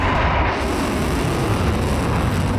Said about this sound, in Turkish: 2, 1, ateş! Roketsan seri üretimleri devam eden geniş bir balistik füze ürün yelpazesine sahip. O ürünlerden biri kısa menzilli balistik füze Tayfun.